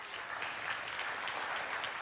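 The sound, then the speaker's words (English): Church audience applauding, a dense, even patter of many hands clapping that stays fairly faint and steady from start to finish. “Will you clap if you've ever seen the Rocky movies?”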